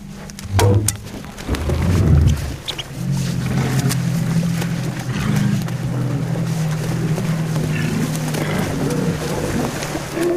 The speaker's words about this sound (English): The scientists wear all white to blend in with the landscape and approach slowly with the motor running low. Then Fischbach aims and shoots his crossbow, embedding a satellite tag in the thick walrus skin.